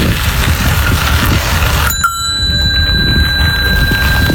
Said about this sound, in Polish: Dźwięk, którego szukacie, to listonosz u drzwi.